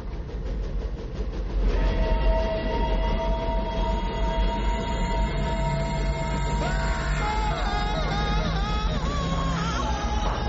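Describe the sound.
An old New York Central train locomotive passes in a tunnel: a loud, steady rumble carrying sustained metallic wheel squeals and whining tones that swell after the opening seconds and persist throughout, with no talk.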